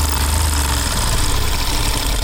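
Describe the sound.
A sewing machine runs in a tailoring workshop inside a Kabul prison, giving a loud, continuous mechanical hum with a fast vibrating rattle that never pauses.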